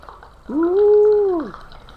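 Bubbling from a bong being ripped: a single gurgling, hum-like tone of about a second that swells in, holds a steady pitch and then dips away, alone over faint background.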